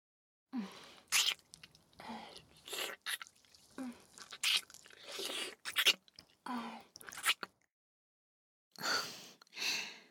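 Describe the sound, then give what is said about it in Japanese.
Wet licking and mouth sounds come in many short, soft bursts mixed with breaths, quiet and close, broken by a brief silence before a final few licks. “そう、舐めてあげるよ。”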